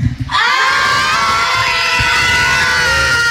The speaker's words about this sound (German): wenn hier gefühlt einfach mal 200 Kinder im Studio stehen, dann klingt das wie?